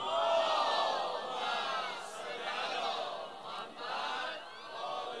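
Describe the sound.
A crowd loudly recites salawat in unison at a religious gathering after a reciter's verses, a massed chorus of voices that swells and holds for several seconds with a few brief dips.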